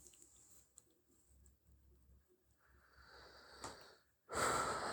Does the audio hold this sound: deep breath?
yes